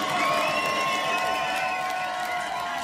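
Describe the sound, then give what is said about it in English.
A hip-hop concert crowd cheers loudly, with high whoops and shouts over a thick roar of voices. The noise eases off slightly toward the end. “Make some noise for yourself, ladies and gentlemen.”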